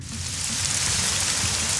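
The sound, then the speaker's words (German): Summer rain falling steadily: a dense, even hiss of countless drops pattering on a surface, constant in loudness throughout, with no voices or other sounds. “Der Regen. So ein schöner Sommerregen.”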